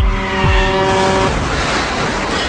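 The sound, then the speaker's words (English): Skidding tires as a dump truck barrels through a red light: a loud, sustained squeal over a roaring engine, breaking into a harsh, noisy rumble. “But real life always has a twist. And a dump truck barrels through a red light.”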